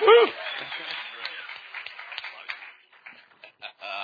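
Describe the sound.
Audience applause at a church service welcomes a speaker to the stage. It opens briefly with a voice, then becomes dense clapping that gradually thins into scattered, fading claps.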